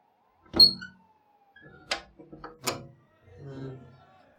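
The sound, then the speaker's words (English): A window being opened: a sharp knock, then a cluster of clicks and rattles from the latch and frame, followed by a soft, low rumbling movement. “Let's go open the window, baby. Come on.”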